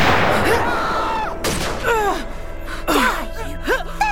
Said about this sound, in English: Take cover! Keep shooting! Watch him aim, you idiot! I'm running low on ammo!